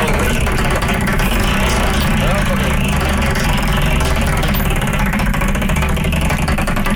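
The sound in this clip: A wheel of fortune with 36 slots spins, giving a fast, even, fine ticking that runs throughout beneath a voice talking and a low, steady rumble.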